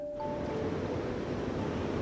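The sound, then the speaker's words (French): Steady roar of spring water pouring from aqueducts into a Paris reservoir, heard in the chamber where the channels discharge. A dense, even rushing noise continues unbroken, with no voices. “Nous sommes ici au réservoir de Montsouris, précisément dans la salle où les aqueducs se déverse dans le réservoir. Vous entendez et vous voyez l'ensemble de ce faramineux débit d'eau”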